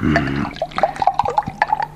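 Water being poured for someone to drink, a quick run of bubbly gurgles and small plinking drips with rising, watery tones, fairly loud.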